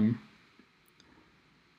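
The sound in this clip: Faint computer mouse clicks, a few soft sharp ticks, sound while recipients are selected in Mailchimp and a voice speaks briefly.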